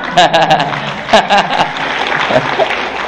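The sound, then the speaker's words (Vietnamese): Audience applause at a lecture, a steady patter of clapping with a voice talking over it. “Thất vọng không mà vỗ tay.”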